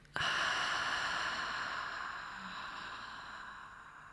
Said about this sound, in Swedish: så tar vi ett djupt andetag in genom näsan, fyller upp bröstkorgen och magen med ny luft och ny energi. Och släpper ut andetaget långsamt genom munnen.